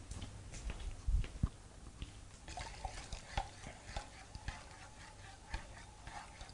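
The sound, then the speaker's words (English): Stirring of a hot, fuming lye solution makes irregular scraping and sloshing strokes with a few louder knocks. It is moderately loud and no one speaks. “At this stage, you don't breathe there close to the lye. I'm going to come back and stir again.”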